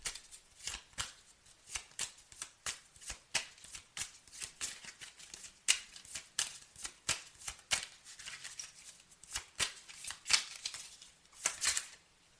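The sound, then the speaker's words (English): Playing cards are dealt, making many quick, crisp snaps and flicks at an uneven rhythm, faint and alone. “May I have 3 cards, please? Thank you. May I have 2 more cards,”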